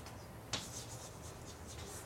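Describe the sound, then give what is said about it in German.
Quiet scratching of writing on a board as notes are added beneath an existing line, one sharp tap followed by a run of soft repeated strokes, heard alone. “ich schreibe es jetzt drunter, es gehört eigentlich drüber”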